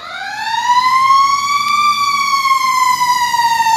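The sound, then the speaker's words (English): A fire truck siren wails as the truck drives past on a street, one loud, steady tone that rises slowly, peaks and then gently falls, with no talking over it. “That's a fire truck driving west on Fern and G.”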